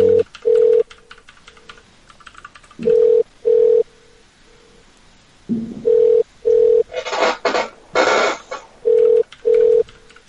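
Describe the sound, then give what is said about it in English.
Telephone ring tone repeating in steady pairs of electronic beeps at a fixed mid pitch, with quieter single beeps between them. A loud, harsh burst of noise cuts in partway through before the paired ringing resumes. “Like the part of the show when the phone rings. Phone rings, phone rings. Ring, ring.”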